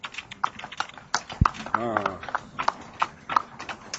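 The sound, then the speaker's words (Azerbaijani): Horse hooves clip-clop in a regular, fairly quick rhythm of many sharp knocks on a village road in Azerbaijan, heard under people talking. “At, çox yaxşı heyvandır. Lav həyətin yaraşırıdır.”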